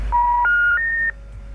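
Three telephone keypad dialing tones sound in a row, each a clean steady beep lasting about a third of a second and each a step higher in pitch than the last, loud with no voices.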